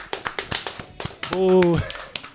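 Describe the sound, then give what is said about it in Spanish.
Quick, sharp hand claps in an even rhythm, answering a call for applause, with a voice speaking over the middle of the run. “Vale, un aplauso a Alemania.”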